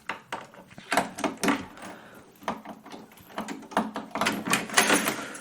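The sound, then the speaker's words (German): A room door is locked with a series of faint, irregular clicks, rattles and small knocks from the key and latch hardware. “Ich muss kurz mein Zimmer abschließen.”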